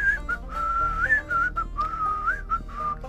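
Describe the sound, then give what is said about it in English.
A person whistles a wavering tune of several sustained notes with small pitch slides between them, steady and fairly loud, with no talking. “and they whistle by the graveyard.”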